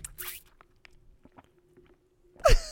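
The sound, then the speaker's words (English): Sipping from a Capri Sun juice pouch: a few faint, soft clicks and sips spread out over near silence, ending in a louder crinkling squish of the pouch. “I got my little fucking Capri Sun right here. It's fucking tasty. It's fucking delicious.”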